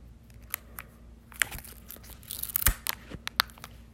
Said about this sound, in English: Like the plastic thing off the charger. So I'll do some ASMR. It's not even like peeling good.